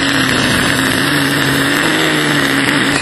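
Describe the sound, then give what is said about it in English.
Rocket blasting off from the Moon gives a loud, steady roar of thrust, dense and rumbling with humming tones, holding level for about three seconds before cutting off abruptly. “And here they go, ready to take off. 10, 9, 8, 7, 6, 5, 4, 3, 2, 1. Blast off.”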